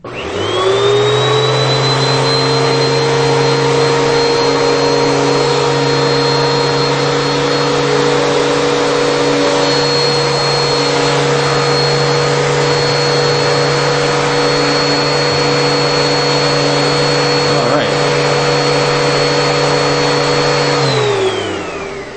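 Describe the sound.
The motor of a canister vacuum cleaner's power nozzle runs loud and steady with a tonal whine over rushing air. It spins up quickly at the start, holds an even drone for about twenty seconds, then winds down.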